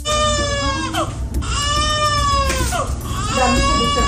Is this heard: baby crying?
yes